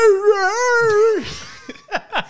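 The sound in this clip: A voice imitates a pit bull boxer mix dog whining and crying: one long, high, wavering whine, then three short, falling yelps, fairly loud and alone.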